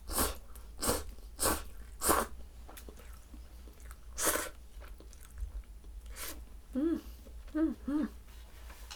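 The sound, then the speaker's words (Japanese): Slurping and chewing of cup noodles, heard as several short, noisy slurps at irregular intervals, quiet overall, with brief speech near the end. “カップヌードルのお味はいかに。いただきます。”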